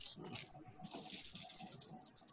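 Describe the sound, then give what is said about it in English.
Dice clatter across a table during a tabletop role-playing game, with quick, faint rattling clicks and a few sharper knocks as they tumble and settle. “it would help if I also had my dice.”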